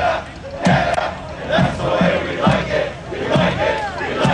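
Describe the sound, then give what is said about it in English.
Football fans in Canadian jerseys, scarves and hats, waving flags and marching from a park to a stadium in Toronto, chant loudly. Rhythmic shouted bursts come about once a second over a constant crowd roar. “marching from Trinity Bellwoods Park all the way to Toronto Stadium, making noise every step of the way.”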